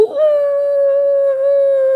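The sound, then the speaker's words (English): A man's voice imitates a wolf howl: one loud, sustained tone held at a steady pitch for about two seconds, heard alone, with a brief dip in strength partway through. “puts his head down and does this wolf howl, but it's so good, dude. It sounds just like a wolf.”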